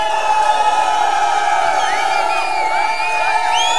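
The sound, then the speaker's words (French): Concert crowd cheering and making noise: a continuous, loud roar of many voices with whoops and shouts, and high whistle-like calls rising and falling over the din throughout. “Je vais vous demander de renvoyer un maximum de bruit pour les gens incarcérés, s'il vous plaît. Pour leur rappeler qu'on n'oublie pas du tout. Faites du bruit pour du son contre la prison. Et faites du bruit pour vous.”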